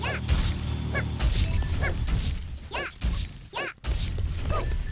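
Smashing a cart in a video game: dense, repeated whacks, crashes and shattering hits, mixed with whooshing swipes and bright chirpy tonal effects over a busy mechanical clatter, with no talking.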